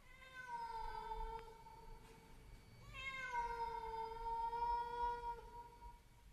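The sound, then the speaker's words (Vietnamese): A cat standing on a porch meows in two long, drawn-out calls, each a clear, steady, fairly loud tone with a slight drop at the end, the second call longer than the first. “Con mèo cứ đứng ở bên hiên nhìn đăm đăm, kêu lên mấy tiếng như thúc giục bà.”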